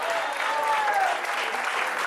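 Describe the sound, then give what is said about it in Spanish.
An audience at a worship service gives a round of applause. The clapping is dense and even, holding at a steady level for the whole clip. “Dele fuerte ese aplauso”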